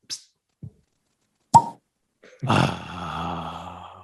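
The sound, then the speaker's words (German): A corked bottle with a dry cork being opened: a couple of faint knocks, then one sharp pop, followed by a burst of voices. “Darf ich mal ganz kurz um Ruhe bitten, dass ich mal diese Flasche öffne?”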